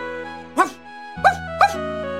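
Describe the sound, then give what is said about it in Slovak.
A shaggy dog lifts its head and gives three short, high yipping barks, the last two closer together, over a sustained tonal background. “chlpatý pes zdvihol hlavu, zavrtil chvostom a zaštekal.”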